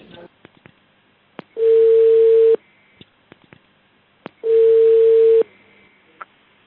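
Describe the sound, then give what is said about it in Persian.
The ringing tone of an outgoing telephone call to a business in the city of Qeshm: two long, steady, mid-pitched tones, each about a second, separated by a pause, with faint line clicks in between. “امروز میخواییم به یکی از عملیات‌های خیلی خوبمون در شهر قشم تماس بگیریم.”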